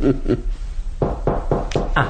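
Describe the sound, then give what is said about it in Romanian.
Knocking on a door: a couple of firm knocks, a short pause, then a steady, evenly spaced run of several more. “până când se va ciocăni la ușa aceasta”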